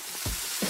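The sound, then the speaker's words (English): Applewood-smoked pork shoulder, cooked low and slow, sizzles in a brief, soft, steady hiss that fades in and out only slightly. “is the sound of Jeff's first ever low and slow Applewood smoked pork shoulder.”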